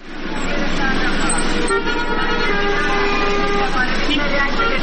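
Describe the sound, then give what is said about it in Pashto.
Car traffic fills a congested street in Ghazni city, where passenger cars disrupt the flow. Sustained, overlapping horn toots sound over a loud, continuous vehicle roar, with voices mixed in. “دا هغه موټران دي چې په غزنی ښار کې شاري چلیږي”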